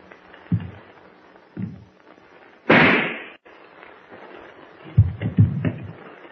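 A single loud rifle gunshot cracks out with a short decaying tail. It stands apart from a few dull low thuds and bumps before and after it.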